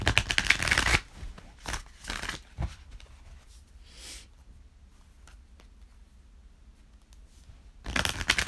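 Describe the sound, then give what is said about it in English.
Tarot cards from a Radiant Rider-Waite deck being handled, with a loud riffling shuffle at the start and again at the end. A few brief, softer card flicks and rustles fill the quiet stretch in between, with no voices. “So let's pull a card and talk about it, shall we? I'm pulling a card from my Radiant Rider-Waite Tarot deck.”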